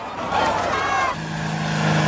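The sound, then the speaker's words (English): A black car parting a crowd of protesters gives a continuous engine rumble with a broad rushing noise. Partway through, the sound steadies into a lower, droning hum. “A black car carrying two concerned men parts a crowd of protesters.”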